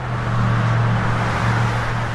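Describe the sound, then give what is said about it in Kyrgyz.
Traffic on the streets of Saudi Arabia: a continuous, even roar of cars with a low engine hum underneath and no talk. “Сырттан карасаңыз, Сауд Арабиянын көчөлөрүндөгү автоунаа кыймылы дүйнөнүн башка өлкөлөрүнөн дээрлик айырмасы жок. Көнүмүш унаалар, көнүмүш тоуштар.”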